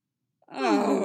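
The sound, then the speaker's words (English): Two people groan together in unison, a short, low, drawn-out moan of exasperation. It starts abruptly after a brief silence and holds at a steady level to the end. “Beatrice and Benedict groan in perfect unison”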